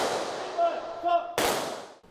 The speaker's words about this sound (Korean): 추모의 의미가 담긴 총성이 울려 퍼지자 사부대중은 일제히 고개 숙여 영령의 넋을 기립니다.